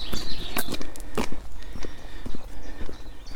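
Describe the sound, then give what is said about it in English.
Footsteps walking up a road, loud and evenly paced, each step a distinct thud in a steady rhythm that carries on through the whole stretch. “And I'm walking up a road which should turn into a track.”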